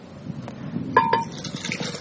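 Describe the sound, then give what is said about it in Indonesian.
Young coconut water being added to a blend, heard as two bright, quick clinks of a glass or utensil against a container over a low, busy background, with no talk. “Itu si kelapa ini ya? Iya, kelapa muda. Air kelapanya tambahin. Air kelapanya tambah.”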